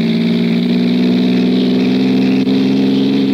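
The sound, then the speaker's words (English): A car engine, revved hard as the gas is stepped on, gives a loud, steady low drone that holds almost level throughout, with only a brief dip and no voices. “Stepped on the gas like a shot.”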